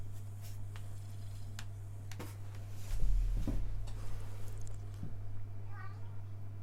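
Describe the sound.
A cat gives a faint, brief meow near the end, over a low, steady hum.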